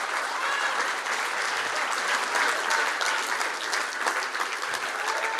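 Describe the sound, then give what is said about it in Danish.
An audience applauds an 80-year-old great-grandmother arriving as a guest on a show. The dense, even clapping holds steady throughout with no break. “Giv en kæmpe stor hånd til en fuld oldemor på 80.”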